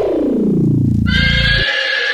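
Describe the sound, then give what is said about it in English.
A horse neighs loudly in a long whinny that falls in pitch and ends in a breathy, high rasp. “He was transformed into this. Wild horses.”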